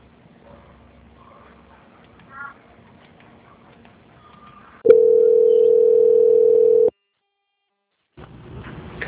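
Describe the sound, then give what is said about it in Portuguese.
A steady, unbroken telephone line tone sounds for about two seconds while a call is transferred to an auditing department and the caller waits on hold. Faint low noise comes before it, and a short silence follows. “Vou passar agora a sua ligação para a auditoria. Vou pedir para o senhor aguardar na linha, que eles vão dar prosseguimento ao contrato”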